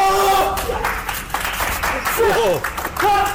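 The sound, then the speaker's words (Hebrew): Audience clapping comes as a scattered patter of hands mixed with people talking over it. “כפיים!”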